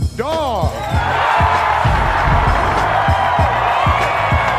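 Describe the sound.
A Harrison University crowd cheering and roaring in welcome, a loud, sustained wash of noise with a regular thumping beat running underneath it.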